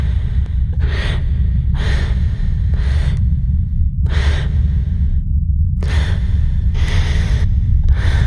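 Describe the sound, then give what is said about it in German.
Heavy, shallow breathing: a steady series of short, even breaths, several in a row, each a soft airy rush, heard over a constant low rumble. “Und mein Atem wird schwer, also ich glaube, mein Atem wird eigentlich flach, ich atme sehr flach”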